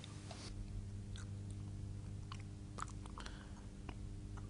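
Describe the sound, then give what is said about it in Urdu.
Someone chews camel kidneys, faint wet mastication with a few small clicking bites over a steady low hum. “یہ کیا کھا رہے ہو؟ اونٹ کے گردے۔”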